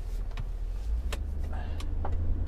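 Low engine rumble from inside a car rolling slowly through bumper-to-bumper traffic near a post office: a steady, deep drone with a few faint clicks and ticks over it.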